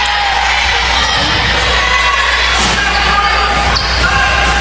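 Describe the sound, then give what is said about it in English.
A basketball being dribbled on court during a crossover move in a game, under loud, steady crowd noise with cheering and shouts throughout. “Coyer now with the basketball. Crossover dribble almost poked away by Norris.”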